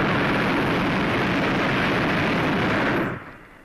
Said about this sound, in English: Burner coming on.